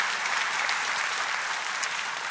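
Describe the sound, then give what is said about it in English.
A church audience applauds during a sermon, producing a thick, continuous roar of many hands clapping at once that stays level and fairly loud from start to finish. “you can applaud for that if you want. Go ahead.”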